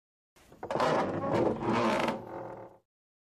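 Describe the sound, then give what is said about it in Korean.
A door creaks open as a cold handle is turned, giving a grinding, creaky sweep that swells and fades over about two seconds before silence. “차가운 손잡이를 돌려 문을 열었다. 삐그덕 소리와 함께 순간 잠이 번쩍 깼다.”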